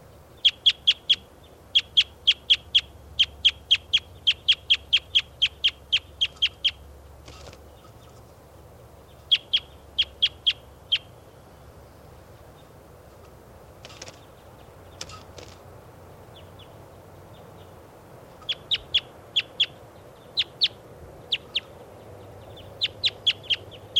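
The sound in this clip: Bird calls: bursts of rapid, high-pitched repeated chirps, several series separated by short pauses over a quiet, faint background.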